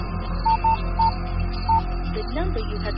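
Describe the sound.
Phone keypad tones as a number is dialed: four short, clean beeps at uneven intervals over a steady low hum, with a brief voice-like sweep near the end.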